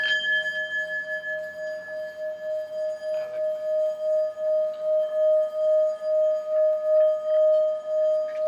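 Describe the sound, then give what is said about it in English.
Singing bowls played in a shop that sells meditation goods give a long, sustained metallic ringing tone with bright high overtones and a slow, steady pulsing waver in loudness. No voices are heard over the ringing. “What are the names of these bowls? What are those called? Singing bowls.”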